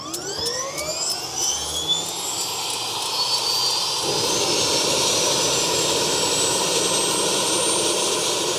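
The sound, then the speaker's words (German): A helicopter engine starts and its rotors begin to turn on an emergency medical helicopter before takeoff. A turbine whine climbs steadily in pitch while a broad roar swells and grows louder throughout. “Wird jetzt immer lauter. Die Rotoren kommen in Bewegung.”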